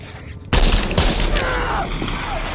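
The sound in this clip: A sudden loud gunshot in a film scene bursts in after half a second of quiet, followed by a dense, noisy stretch of sustained commotion.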